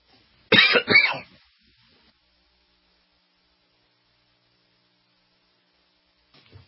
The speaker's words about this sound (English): I can usually suppress coughing on air. Excuse me.